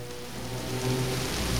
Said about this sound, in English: Standing in the pouring rain, Danny's